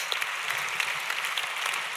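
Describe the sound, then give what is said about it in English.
An audience at a children's stage show claps to welcome a presenter. Dense, even applause runs without a break for about two seconds, with no talk over it. “Give her a big clap.”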